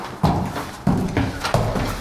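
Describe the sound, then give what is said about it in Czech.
Footsteps on old wooden stairs in the Tišnov museum: three hollow, booming thuds at a slow, even pace, each with a dull wooden resonance. “Tak pojďte tady po těch schodech, teď opatrně, bude to tak jako duně, jsou to dřevěné staré schody.”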